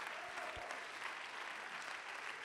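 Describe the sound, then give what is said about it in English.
An audience claps their hands during an apostolic church service: a dense, steady wash of many hands clapping that continues evenly and loudly throughout. “Let's clap our hands.”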